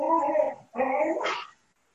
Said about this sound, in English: Sorry, we have a kid at the door, and the dog's letting you all know how brave he is.